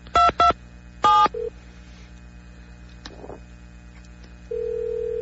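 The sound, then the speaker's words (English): Telephone keypad dialing tones: three loud beeps in quick succession, then a brief softer blip. After a short pause comes a faint rustle, then a steady, unbroken line tone that holds to the end. “Oh, that's the phone line. Yeah, it is. Who are you calling?”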